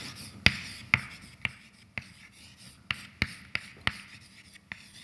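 Writing on a board during a lecture: a faint series of sharp taps and short scratches in an uneven rhythm, with no talking.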